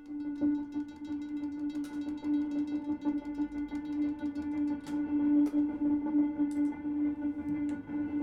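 A looped sound bed built with a looper, reverb and tremolo: a steady, sustained mid-pitched drone rich in harmonics that wavers gently, with faint higher blips scattered over it and no talk.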